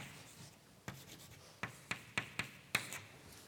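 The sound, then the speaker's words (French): Marker or chalk writing on a board during a mathematics lecture: six faint, sharp tapping strokes, the first alone and the rest in a quicker, uneven run, over a quiet hiss with no talk. “Donc je peux l'écrire comme ceci.”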